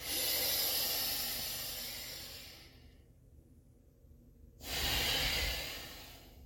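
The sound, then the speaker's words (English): Slow breathing in a balancing breath exercise, with pauses between inhales and exhales: a long, airy, hissing breath that fades away, a stretch of near silence, then another strong breath. No speech. “That's a balancing breath. And the pausing is this acknowledgement of transitions.”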